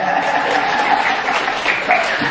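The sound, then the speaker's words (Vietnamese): An audience applauds steadily, a dense, even wash of many clapping hands that holds at a constant loudness from start to finish. “Nghe kỹ nghe vỗ tay đi.”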